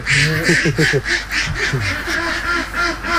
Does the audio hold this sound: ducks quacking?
yes